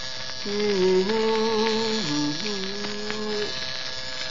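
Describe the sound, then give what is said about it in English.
An electric razor hums while shaving in an office, a steady buzzing drone that steps up and down in pitch a few times like a faltering tune, with no talk over it. “What do you think about this razor? For years, it hummed Jeannie with the light brown hair. The last couple of days, just can't seem to carry a tune.”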